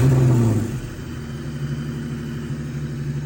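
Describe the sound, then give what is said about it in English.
A supercharged car engine with a rev-hang fault and a lean-running mixture: a louder opening moment eases into a sustained, steady engine hum that lingers rather than settling quickly to idle. “See that? It's just rev hanging super long. Look how long that rev hangs for.”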